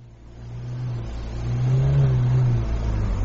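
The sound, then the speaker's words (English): Car engine revving in a garage while being worked on, a low, rumbling drone that swells in loudness and climbs in revs midway, then holds a steady, stronger roar; no voices. “they just like to fiddle about with engines and make a noise for the sake of making a noise”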